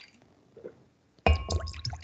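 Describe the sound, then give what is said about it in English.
Water is poured into a glass. A quiet stretch with faint clinks gives way to a sudden, loud splashing pour that continues to the end. “Pour yourself a little bit more. I need to finish up my Icelandic glacial here.”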